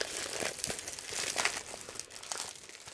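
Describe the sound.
Crinkling packaging as a parcel is opened, with faint, irregular crackles and rustles that come in uneven clusters with small pauses between them.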